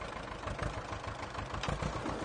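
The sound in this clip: A worn, aging farm tractor engine chugs and labors with a faint, low, uneven rumble that pulses slightly throughout, with no voices.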